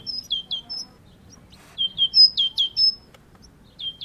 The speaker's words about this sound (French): Ça, c'est la mésange.